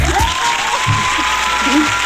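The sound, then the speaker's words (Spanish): Audience applause welcoming a guest: a dense, steady wash of clapping that holds at an even level for the whole stretch, with a few low voice sounds underneath. “Los aplausos, señora, aplauda, señora. ¡Aplauda!”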